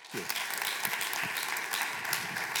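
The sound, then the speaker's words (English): A church audience applauds to welcome a pastor at an ordination service, with steady, dense clapping that holds at an even level from start to finish. “Would you give him a more warm welcome?”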